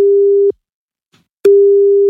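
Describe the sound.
A telephone ringback tone plays as a listener's phone is rung: two steady, low, loud tone bursts separated by a silent pause of about a second.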